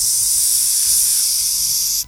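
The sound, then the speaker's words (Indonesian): A snake hisses in a quiet forest: a loud, steady, airy hiss that holds for about two seconds and then cuts off abruptly. “Tadi ada suara ular.”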